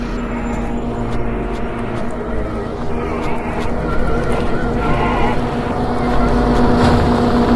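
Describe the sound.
A propeller aircraft roars as it takes off and flies past. Its loud, steady engine drone carries a low tonal hum and swells slightly toward the end.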